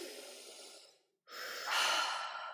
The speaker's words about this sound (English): I think we just need to do a big exhale.